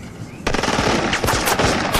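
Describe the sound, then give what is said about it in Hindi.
Soldiers fire guns in rapid, dense bursts of loud cracks that begin abruptly and continue without pause to the end. “मार दो ना भाई, देर मत करो। सामने निशाना लगाओ और फिर फायरिंग करो।”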